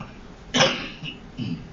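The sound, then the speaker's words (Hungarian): A person coughs once, a sharp, loud burst, followed by a couple of fainter, rougher throat sounds, with no talking. “Elnézést kérek, hogy köhögök időnként.”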